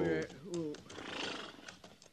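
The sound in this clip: A horse resting in rough, rocky mountain country lets out a shrill whinny that falls in pitch and ends in a shaky tremor, followed by softer scuffing and clopping sounds.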